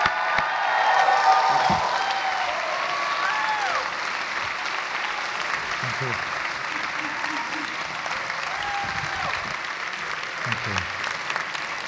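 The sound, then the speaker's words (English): Audience applause welcomes a visiting speaker at Hope College, a dense, steady patter of many hands clapping that lasts about twelve seconds at an even level. “So would you please give Vinoth a warm Hope College welcome?”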